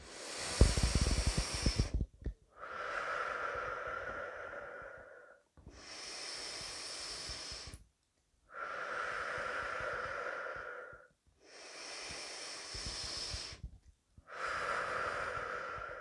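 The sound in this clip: Deep, slow breathing in and out during a guided energy and vitality breathing exercise: long, airy inhalations and exhalations alternate in a steady rhythm, each separated by a brief pause of silence.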